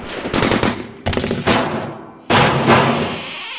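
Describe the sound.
Rapid automatic gunfire as bullets pierce a wall, heard as several loud, dense bursts of rattling shots with no talk.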